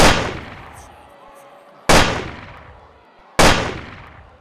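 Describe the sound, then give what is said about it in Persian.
Three fatal rifle shots fired at a presidential motorcade in Dealey Plaza. Each sharp, loud crack is followed by a long decaying tail, and the shots are spaced roughly evenly, about a second and a half apart. “صدای سه شلیک مرگبار فضا رو پر میکنه.”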